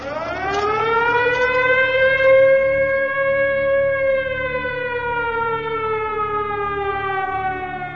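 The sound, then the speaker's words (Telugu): A factory siren sounding in the evening, a loud sustained wail whose pitch climbs over the first couple of seconds, then sags slowly as the tone holds on to the end. “సాయంకాలం మోగిన siren Vikas కి వినిపించలేదు”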